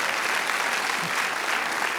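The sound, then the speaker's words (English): Congregation applause during a church service: steady, dense clapping at an even level, continuous across the whole stretch. “come on, give God a clap and thank him.”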